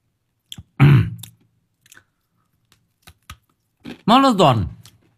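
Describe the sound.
Crunchy candy being chewed: a few short, crisp crunches spaced apart, with brief voice sounds between them.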